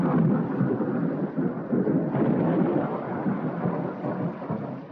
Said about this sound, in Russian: Оленька делает шаг от окна. Быстро крестится во время раската грома.